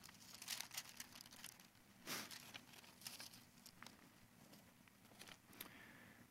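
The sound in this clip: Pages of a Bible are turned to Psalm 62: faint, dry rustles and papery crinkles scattered across several seconds, with no talking.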